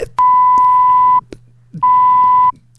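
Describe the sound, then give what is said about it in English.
Censor bleep effect for covering swearing: two loud, steady, mid-pitched beeps, the first longer than the second, separated by a short gap, with faint clicks and no speech. “That's a swearing beep.”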